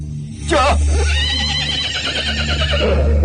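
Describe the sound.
A horse neighs as a rubber-tyred, horse-drawn cart sets off. The loud whinny breaks in sharply, and its wavering, descending pitch trails into a long, breathy tail over a steady low rumble.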